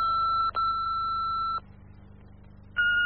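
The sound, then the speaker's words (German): Three electronic keypad beeps as a phone call home is dialed. Two sustained tones come in quick succession, then a longer pause before a short final tone, with no talk. “Ich werde noch bei dir zu Hause anrufen und diese Nachricht auch dort hinterlassen.”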